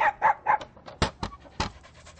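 A female pet dog pants in quick rhythmic breaths, three even bursts followed by a few sharper, louder huffs, fairly faint with no talk over it.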